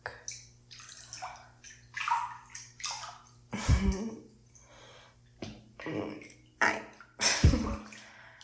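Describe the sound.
Bathtub water splashing and sloshing as someone takes a long soak; many irregular, fairly faint splashes and swishes with a few deeper thumps of moving water.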